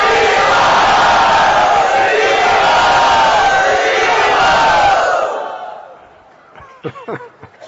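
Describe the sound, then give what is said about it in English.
A crowd cheers and shouts loudly in welcome, a sustained roar for about five seconds that then fades away, leaving a few scattered voices. “let us very loudly and very enthusiastically welcome them”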